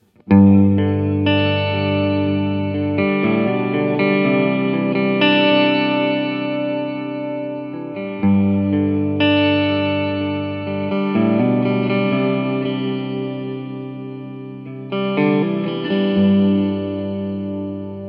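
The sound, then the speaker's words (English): Sustained electric guitar notes pass through a pitch-shifting pedal that adds a perfect fifth above each played note, giving a thick, harmonised tone. A few ringing phrases, each changing pitch every few seconds, play alone without talk. “the last one we're going to do here is the perfect fifth above, just to give you guys an idea of what that's going to sound like.”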